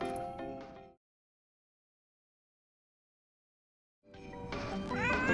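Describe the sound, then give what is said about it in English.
A cat dressed as a little elf meows in two bursts separated by a long silence; the first is short, and the second is longer and fuller, with rising tonal cries. “The only good thing about this whole holiday shindig is that Malachi is dressed up like a little elf. A little feline elf.”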